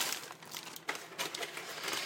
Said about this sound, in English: The burger came in one of those paper bags with a shiny inside, like a sort of foil inside.